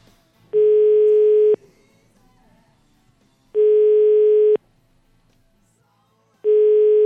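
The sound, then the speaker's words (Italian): Telephone ringing tone while placing a call: three loud, steady single-pitch tones, each lasting about a second, separated by quiet gaps of roughly two seconds. “Io proverei a fare una telefonatina alla signora.”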